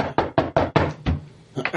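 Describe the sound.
Heavy knocking on a door: a rapid run of loud, hard thuds packed into the first second, then a brief pause before a short voice at the end.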